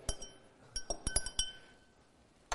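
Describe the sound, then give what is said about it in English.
Liquid is stirred in a glass, producing faint, bright glassy clinks. A quick irregular run of ringing taps is followed by a pause and one final clink. “I'm going to give it a stir.”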